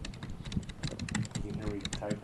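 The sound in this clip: Typing a search on a computer keyboard: many quick, uneven clicks in a steady run, with faint talk underneath.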